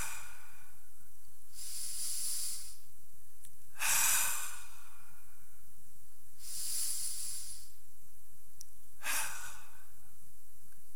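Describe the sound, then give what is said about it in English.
Slow, deep breaths are drawn in and sighed out at the start of a prayer practice. Four soft, hissing breath sounds stand alone, with quiet pauses between them. “These deep, deep, deep breaths in, and I sigh it out.”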